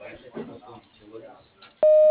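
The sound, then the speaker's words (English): An answering machine beep on an office desk phone: a voice speaks, then a single loud, steady electronic tone starts abruptly and holds to the end. “Please leave your name and phone number at the beep so I can return your call.”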